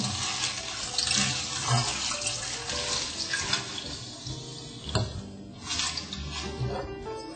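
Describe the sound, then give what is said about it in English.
Running tap water pours over kale as it is washed, a continuous splashing rush with a few sharper splashes and no talk. “So now that our kale is washed, I just pull it off like so.”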